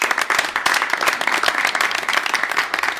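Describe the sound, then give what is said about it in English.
An audience at a live storytelling show claps continuously while sponsors are thanked, a brisk, dense patter of many hands that stays loud and fairly even throughout. “yeah, we'll just keep clapping”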